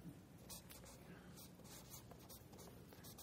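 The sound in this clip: Faint, scratchy writing strokes come from a lecture, where a speaker writes out an abbreviation. They form a quick series of short, breathy bursts over a low background, with no talk.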